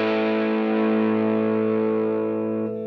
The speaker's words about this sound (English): Phase in the neck. Yep. Let's put a little just overdrive. 1981 effects.